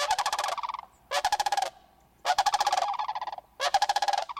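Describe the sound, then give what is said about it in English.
Cranes in a massive gathering give loud rolling, rattling calls in a series of pulsed bursts separated by short pauses, with no voices present. “Within these massive gatherings of cranes are many smaller groups, tight-knit family units.”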